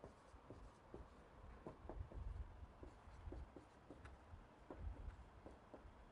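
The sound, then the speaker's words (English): Words are written on a board, heard as faint, scratchy strokes and small taps in an irregular run, quiet and continuous with brief pauses between marks. “Now I am going to write "poor in spirit" up here.”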